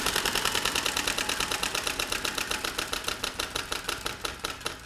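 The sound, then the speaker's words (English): A game show prize wheel spins with a fast run of ratcheting clicks that steadily slow and soften as the wheel winds down. No voices. “lean over, grab the wheel, and give it a spin. All right, here it goes.”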